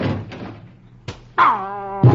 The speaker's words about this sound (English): He rings the doorbell. The door opens.